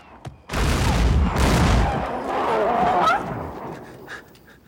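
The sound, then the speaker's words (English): Gunfire aimed at a charging creature: a loud, dense, sustained roar of shots lasting about three seconds, then fading into quieter rumble. “They start shooting at it as it runs towards them.”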